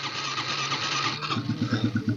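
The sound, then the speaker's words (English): A carbureted Honda CRF110F dirt bike cold-starting on its electric starter with the choke on, at about 35°F: a steady starter whir gives way to a rough, uneven run of engine pulses as it catches. “So even with the carb, turn the gas on, turn the choke on, electric start.”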